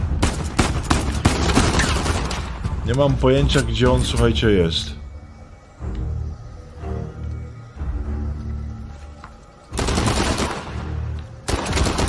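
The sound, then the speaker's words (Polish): Rapid bursts of automatic gunfire from a shooter above in a video game, dense and loud at the start and again near the end, with people talking in the quieter stretch between. “Gdzie ten gościu jeszcze strzela, słuchajcie? Tu gdzieś z góry.”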